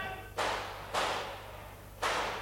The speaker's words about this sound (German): Das sind doch Schüsse.